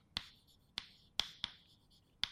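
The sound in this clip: Writing on a board during a lecture: five quiet, sharp taps with brief scratchy tails, spaced irregularly, with no voice over them.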